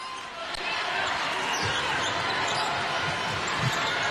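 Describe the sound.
A basketball is dribbled as the Czech team presses full court against China, with faint bounces spaced through a steady roar of crowd noise and voices underneath.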